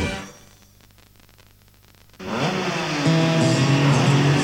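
A racing car engine sits at a low, buzzing rattle, then abruptly bursts into a loud, high-revving roar that holds steady and strong to the end.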